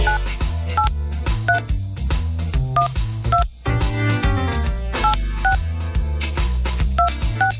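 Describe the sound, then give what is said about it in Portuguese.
Telephone dialing tones: short two-note beeps repeat in a quick, regular pattern over a loud, continuous low backing. There is a brief drop in the middle before the beeps resume. “Deixa eu ligar aqui.”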